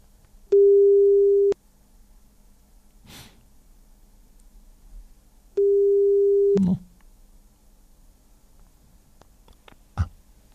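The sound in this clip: Two ringback tones sound on an outgoing phone call. Each steady, low-pitched beep lasts about a second, with a long pause between them, and faint breathy noises come in the gaps.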